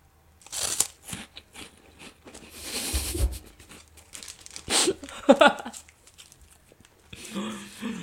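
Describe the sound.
Crisp crunching and crackling as someone bites into and chews a mentaiko-flavoured snack, with a few sharp bites, rustling, and a voice heard at moments.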